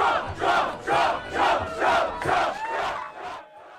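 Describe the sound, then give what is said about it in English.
A crowd at the Iowa-Iowa State football game in Ames, Iowa, roars a loud, rhythmic chant to welcome Donald Trump. The chant swells and falls in regular pulses and fades at the end. “Former President Donald Trump got a rousing welcome in Ames, Iowa, where he attended the Iowa-Iowa State football game.”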